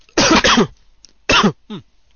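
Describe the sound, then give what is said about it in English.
Harsh coughing from a tickly throat, aimed straight into the microphone: a cluster of loud coughs, then a shorter pair after a brief gap, with silence between the bursts. “this is a tickly throat, which results in me coughing straight into the mic.”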